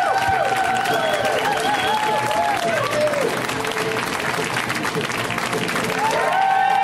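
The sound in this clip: Audience applause welcoming a comedian to the stage at a comedy show: continuous, dense clapping with whoops and cheers over it, staying loud and even from start to finish.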